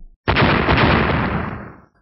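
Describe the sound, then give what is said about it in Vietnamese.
A string of explosions erupts as sword beams strike a pillar in a fantasy cultivation tale, merging into one loud, crackling roar that starts abruptly, holds for over a second and then fades away. “Những tiếng nổ liên tiếp vang lên, cây cột bị chém hai đoạn”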